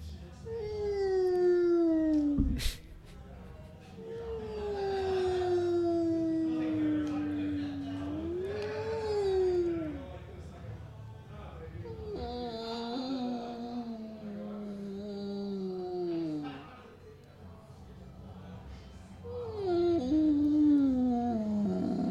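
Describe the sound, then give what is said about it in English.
Whale song from a played recording: long, moaning tonal calls rich in harmonics that glide and sweep, several of them falling in pitch, repeated over a low continuous background. “hold on, I'm just turning up the whale sounds.”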